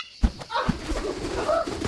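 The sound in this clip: A trained bird of prey, just unhooded by its handler, gives a short call over a dense, noisy background, with two brief thumps early on.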